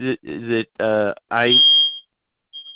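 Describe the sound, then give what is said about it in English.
A fire alarm going off: a high, thin, steady beep rises out of a person's talking, stops, then returns briefly on its own after a short silence. “now the fire alarm goes off.”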